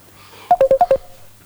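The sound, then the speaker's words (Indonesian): Telephone keypad dialing tones as a call is redialed after a bad network connection: five short, evenly spaced beeps in quick succession, loud over a faint low hum. “Coba diulang lagi ya. Coba kita ulang lagi ya telepon ya.”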